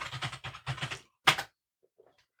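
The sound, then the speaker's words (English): Typing on a computer keyboard: quick runs of clattering keystrokes over the first second, then a short burst and a pause, and another burst at the very end. Fairly loud and dry, with no talk over it. “You type.”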